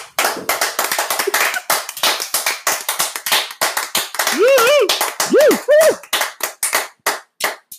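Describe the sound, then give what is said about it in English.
Several people clap in quick, irregular bursts to welcome a guest. Voices rise over the middle of the applause before the clapping thins out toward the end. “Guys, give it up for Erica really quick.”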